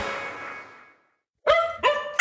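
A dog barks a few short, sharp, loud times after a brief silence, each bark bright and clipped, with no voices.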